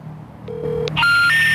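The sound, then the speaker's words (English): Telephone tones as a number is dialed: a steady low tone is followed by brighter electronic tones that step higher and hold. The tones are loud and clear, with no talk. “Here's what happens when you dial that deputy who called the neighbors.”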